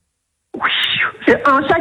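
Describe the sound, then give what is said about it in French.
A human voice imitating an angry cat: after a brief silence, a loud, whining yowl is followed by a few choppier, snarling, meow-like cries. “C'est un chat qui est énervé.”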